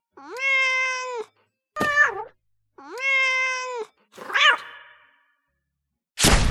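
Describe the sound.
Cat meows from a video game: two long, drawn-out meows alternate with shorter squealing cries, and an abrupt burst of harsh noise follows at the end.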